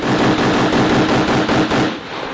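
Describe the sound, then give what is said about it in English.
Rifle gunfire from a short-barrel Mosin Nagant at a shooting range: a loud, dense, sustained burst of shots running together with no clear gaps, ending slightly quieter. “when that guy next to you has the Mosin Nagant with the short barrel. Bingo. And when he starts blasting off rounds”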